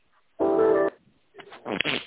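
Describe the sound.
A single telephone keypad button tone during a call: a steady, fairly loud beep lasting about half a second, followed after a pause by softer, rougher sounds.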